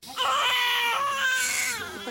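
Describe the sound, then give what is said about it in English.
A newborn baby crying in a hospital in Nablus: one sustained, high, wavering wail with strong harmonics, loud and clear, with nothing else heard. “In a Nablus hospital, the cries of a newborn as new life emerges from tragedy.”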